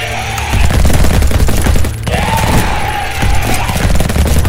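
Heavy gunfire pours from rifles at a giant creature about 2.5 metres tall in a science-fiction audio drama, a loud, dense and continuous stream of shots with a brief dip near the middle.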